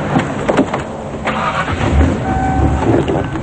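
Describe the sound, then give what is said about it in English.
A car engine turns over and settles into a rough, rumbling run, with low thumps and a fairly loud, even drone throughout. “Come on, I'll drive you home. She gets in the back of the car.”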